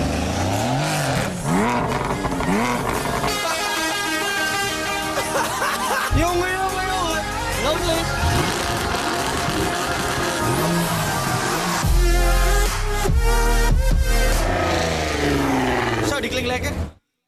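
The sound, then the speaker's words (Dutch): Tuned-up cars rev their engines at an illegal car meet: loud, continuous engine roar with rising and falling notes and a heavier burst near the end, with people talking and chuckling alongside. “De vetste opgevoerde automodellen zijn daar te bewonderen en het klinkt ongeveer zo.”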